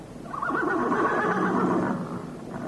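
A horse neighs in a single long, loud whinny of about two seconds, its pitch wavering throughout before it fades, heard alone without voices or hoofbeats.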